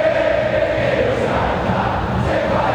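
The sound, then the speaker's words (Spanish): Boca Juniors supporters chant and cheer in the stands during a football match. The crowd sings as one continuous, loud, droning mass. “El público de Boca comienza a alentar cada vez más fuerte.”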